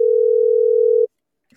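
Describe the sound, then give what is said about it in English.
Telephone dial tone while placing a call back to a caller, one steady, even-pitched tone lasting about a second before cutting off abruptly into silence. “we're going to give this caller a call back because they also called in”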